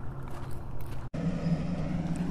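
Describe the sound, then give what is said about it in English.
A trash truck drives past with a steady, heavy engine rumble and a low droning hum that holds across the whole stretch, broken only by a split-second gap near the middle. “We're going to wait for the truck to go by, I think.”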